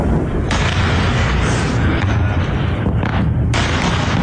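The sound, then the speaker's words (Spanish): Heavy booming and rumbling from a ballistic missile attack and interceptions over bases in Jordan, a dense continuous roar with a couple of sharper blasts standing out. “También han atacado bases en Jordania, donde se han interceptado hasta 18 misiles balísticos. Este era el sonido.”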